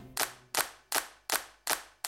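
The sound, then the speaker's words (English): Hands clap six times in an even, steady rhythm during a children's action song. Each clap is sharp and bright with a short decay. “Clap your hands in front of you.”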